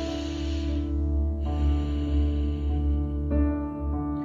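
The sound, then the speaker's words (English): A slow, deep breath drawn in and let out, its soft airy rush rising and falling in long swells over a sustained low tonal drone. “So, deep breath.”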